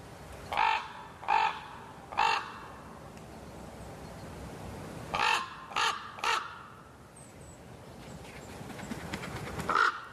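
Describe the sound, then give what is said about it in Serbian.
A thick-billed raven gives harsh, croaking caws: two bursts of three calls each, then a single call near the end, loud against faint background noise. “Debelokljuni gavran, dugačak oko 65 cm i težak 1,5 kg, najkrupnija je ptica pevačica, a hrani se svime od stočne balege preko larvi tvrdokrilaca do mesa.”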